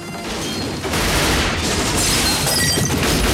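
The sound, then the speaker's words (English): Sustained gunfire as a man shoots at two armed guards in a room, a loud, dense barrage of rapid shots and booming crashes that swells after the first second and continues without a break. “John shoots at the guards, then hurls a chair at one when he gets back to his feet.”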